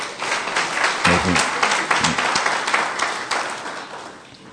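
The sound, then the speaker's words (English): Audience applause welcoming an arriving guest: sustained, dense clapping that holds steady for several seconds, with brief voices mixed in, then gradually fades toward the end. “Please welcome him with a hand.”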